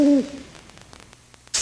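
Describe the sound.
An owl gives a short, clear hoot whose pitch falls. Quiet follows, and a brief burst of hiss comes at the end.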